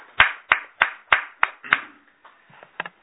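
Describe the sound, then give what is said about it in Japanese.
Hand clapping celebrates a woman's 89th birthday: six sharp, evenly spaced claps in a steady rhythm, then a pause and a few fainter, looser claps. “今日は佐々木さんの奥さんの佐々木道恵さんが満89歳を迎えられましたので、盛大な拍手でお祝いをし”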